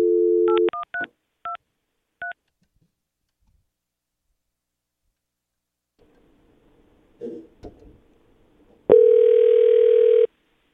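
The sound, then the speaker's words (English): DTMF keypad tones as a number is dialed out on a studio call-in line: several short, crisp beeps in an uneven rhythm, a quiet stretch with faint clatter, then a long, steady, louder line tone. “Can I dial out with our warm line, or is that not a dialer outer? You should be able to.”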